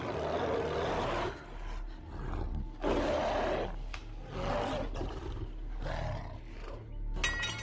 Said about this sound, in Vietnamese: nó ngửa đầu lên trời gầm gào, càng tàn bạo và hung mãnh hơn.